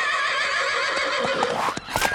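A horse gives a loud, sustained whinny, a rich harmonic call with a wavering pitch that sinks and breaks near the end.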